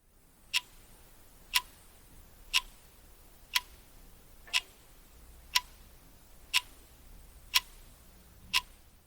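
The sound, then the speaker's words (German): An alarm clock on a bedside table ticking faintly and steadily, nine crisp, evenly spaced ticks about a second apart over a quiet background hiss. “das ist der Wecker, der auf meinem Nachttisch steht.”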